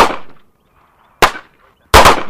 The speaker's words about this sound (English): Straight down range. Load your firearms, make your guns ready.